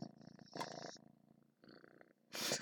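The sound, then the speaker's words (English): A cat resting in a lap purrs softly in a steady, rhythmic low rumble, faint throughout. “I don't know if you can hear the cat purring.”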